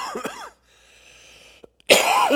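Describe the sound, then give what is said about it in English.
A person coughs while fighting a lingering cough: a harsh throaty cough at the start, then a brief quiet stretch, then a loud, rough burst of coughing at the end. “Pardon me. Still fighting this cough.”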